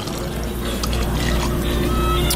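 A cold soft drink is poured, giving a steady, fairly loud fizzing and splashing rush of liquid that runs without a break.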